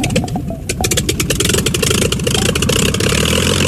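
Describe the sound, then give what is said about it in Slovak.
A propeller airplane engine, started by hand-swinging the propeller and then given throttle gently, chugs in a steady, rapid, loud rhythmic pulse that continues without a break and without voices. “Ja roztočím vrtuľu a ty len pridaj plyn. Zľahká plynule.”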